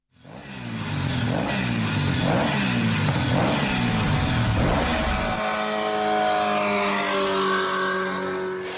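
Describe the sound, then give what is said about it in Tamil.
Engine of a vehicle driven very fast, revving hard. The loud, continuous drone repeatedly climbs in pitch through gear changes, then settles into a steady high whine for the last few seconds. “எப்படித்தான் இவ்வளவு வேகமா வண்டி ஓட்டுறாங்களோ!”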